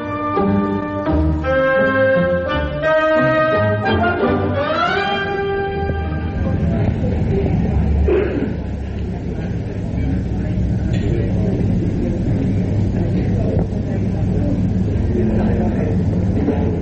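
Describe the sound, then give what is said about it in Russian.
Pub ambience at Sir Richard Steele's in north London: a few seconds of music give way to a dense, steady din of background voices and room noise that stays loud throughout. “Мы сейчас с вами на севере Лондона, в пабе. Он называется «Сэр Ричард Стилз».”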